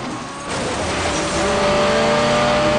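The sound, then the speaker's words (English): A car engine roars as the car overtakes a truck and swerves in front of it. After a brief quieter opening the level jumps up, then holds as a loud, sustained drone with steady engine tones. “The lead car overtakes the truck and swerves in front of it.”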